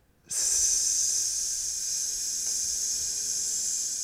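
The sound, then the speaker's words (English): Steady, bright hiss of tofu simmering in a cooking pot. It starts abruptly and holds at an even level without a break, with no talk over it. “Well, you know, when you're cooking something, you're going to leave it for a bit. So you can listen to some more tofu. Simmering.”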